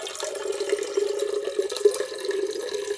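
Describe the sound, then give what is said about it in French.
Water poured from a village fountain into a watering can, a steady, continuous gurgling splash with small uneven bursts throughout the flow. “Vous aviez le bruit de l'eau qui coule dans l'arrosoir.”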